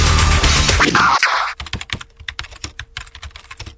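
A loud burst of music cuts off, then rapid, irregular typing clatters on a computer keyboard as someone writes an online review of a brewing yeast strain. The keystrokes are crisp and uneven, with no voices.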